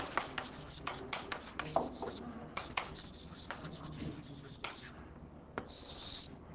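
An eraser rubs writing off a board during a physics lecture: many quick, scratchy strokes in an uneven rhythm, with a softer, steadier rub near the end.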